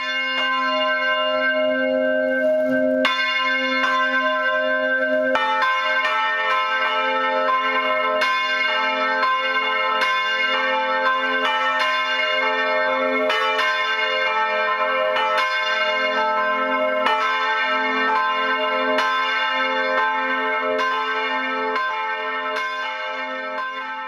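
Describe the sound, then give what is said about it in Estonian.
Church tower bells ring at noon from a newly installed set, many overlapping strikes blending into a dense, sustained, loud peal that continues steadily throughout with no talk. “Uued tornikellad teevad seda samamoodi, kuid lisaks heliseb nüüd kell 12 keskpäeva kell ja lasteaia lapsed lähevad selle helina peale lõunat sööma.”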